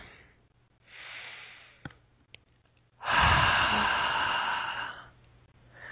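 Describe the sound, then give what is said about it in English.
A deep breath taken during a guided relaxation: a soft, airy inhale, then a pause with a couple of faint clicks, then a longer, louder, whooshing exhale that fades out, with no talk. “Let's take a nice deep breath.”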